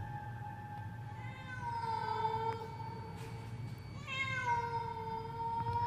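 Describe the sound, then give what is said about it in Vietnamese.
A cat meows in long, drawn-out, wavering calls, clear and without talk over a steady low hum. “Thấy ông ngoại không đuổi kịp, nó thậm chí còn đứng lại, kêu lên mấy tiếng meo meo như là mời gọi.”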